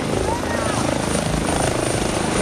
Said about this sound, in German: Das ist der Medikopter, den Hubschrauber, glaube ich, oder?